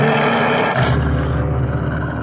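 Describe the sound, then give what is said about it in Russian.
A huge, lame tiger roars at the mouth of a cave: a deep, loud, sustained growling rumble that rolls on for about two seconds. “У входа в пещеру стоял огромный тигр.”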